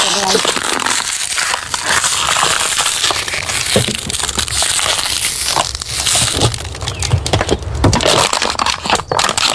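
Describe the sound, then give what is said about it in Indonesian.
Crinkly plastic wrapping being peeled off by hand, giving loud, continuous crackling and crumpling with many small sharp snaps throughout. “Dia punya plastik nih, kok? Ya. Ini nanti kupas. Ini. Kupas begini.”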